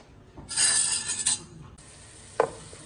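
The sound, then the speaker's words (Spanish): Chopped onion sautéing in butter in a frying pan: a loud burst of steady sizzling hiss fades to a quieter simmer, followed by a single sharp clink of a utensil against the pan. “En sartén estamos poniendo como un cuarto de barra de mantequilla aquí en el sartén y le vamos a poner la cebolla primero la cebolla que se acitrone y luego el apio”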